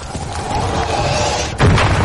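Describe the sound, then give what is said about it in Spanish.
A bomb explodes in a trench. A steady rumbling din runs throughout, then a sudden heavy low boom bursts in near the end and keeps rolling loudly to the close. “Una bomba impacta en la trinchera.”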